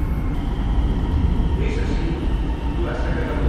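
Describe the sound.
Commuter train on the S5 line from Terrassa pulls into a crowded station platform, a steady, loud low rumble that fills the whole stretch, with people talking over it.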